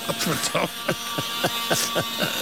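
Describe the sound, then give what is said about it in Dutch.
A saw cuts along a marked line on a human skull during a body dissection, making a rapid series of harsh, rasping strokes at a steady rhythm, moderately loud throughout. “Terwijl hij aan het zagen is, slaat een verbrande geur me in het gezicht.”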